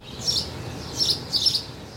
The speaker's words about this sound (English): Down a side street in Philly's Fiddler Square neighborhood, the chirping of birds fills the air. The sound is so beautiful and resonant,